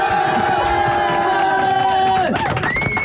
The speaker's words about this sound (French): Je crois qu'on peut faire une standing ovation pour les chaussettes de Michael Jackson sur Fun Radio.